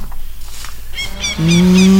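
A cow moos in an advert for oat feed, one loud, sustained, low and steady moo that starts partway through after a quieter, noisy stretch.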